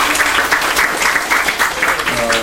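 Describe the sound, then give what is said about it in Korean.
Church audience applauding newly ordained officers, loud, warm clapping that pulses steadily throughout, with a few sustained tones entering near the end. “다시 한번 임직받은 분들을 위해서 뜨거운 박수 부탁드립니다.”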